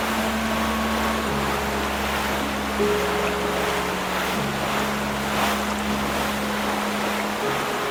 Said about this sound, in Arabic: العاصفة تشتد، أقترح أن نعود إلى الشاطئ.